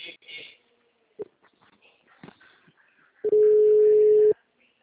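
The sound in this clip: A telephone ringback tone sounds while a call is being placed: a single steady, mid-pitched tone lasting about a second that follows a few faint, scattered sounds.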